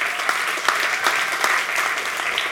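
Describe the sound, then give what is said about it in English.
Church audience clapping their hands during a sermon: dense, continuous applause that holds a steady, fairly loud level throughout, with small bursts of sharper claps and no voices on top. “Can I get an amen from everybody in the room? Come on, clap your hands.”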